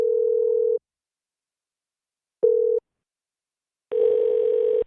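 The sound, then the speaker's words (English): A telephone ringing tone on a call: a steady mid-pitched tone in three separate bursts, the first longest and the last overlaid with a rougher, noisier texture. “they answer the damn phone.”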